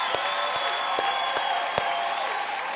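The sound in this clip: A standing church audience applauds to welcome a guest with dense, steady clapping that holds at an even loudness, with a few sharper claps standing out.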